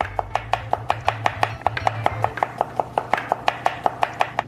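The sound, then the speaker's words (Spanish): A knife chops food on a cutting board, slicing as thin as possible, in many quick, evenly paced strokes. Each is a sharp tap in a steady rhythm, with no talk. “Intenta cortar lo más fino posible.”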